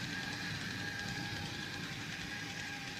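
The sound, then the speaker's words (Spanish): A newly bought toy train runs with a faint, continuous whirring rumble and a steady hum, without distinct clicks. “Estoy con mi tren. ¿Te gusta? Lo acabo de comprar.”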